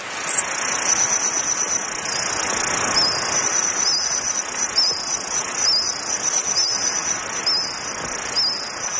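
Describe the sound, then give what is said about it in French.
Insects chirping in a reconstructed Jurassic forest soundscape: dense, high-pitched cricket-like trills run steadily throughout over a constant airy hiss, with no other sounds standing out. “Et ils sont allés même jusqu'à reconstituer le paysage sonore d'une forêt de cette époque. Ça donne à peu près ceci.”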